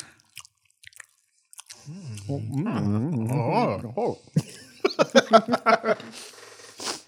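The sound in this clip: Chewing and biting during a mukbang eating session. A voice runs through the middle, then a quick series of sharp, crunchy bites and chews follows.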